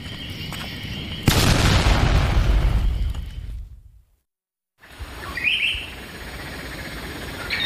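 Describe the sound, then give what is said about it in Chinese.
Explosives blow up a watchtower with one sudden, loud boom that rumbles away over about two seconds, then silence. Faint bird chirps follow over a quiet background. “弄点炸药，把这岗楼给我炸了。”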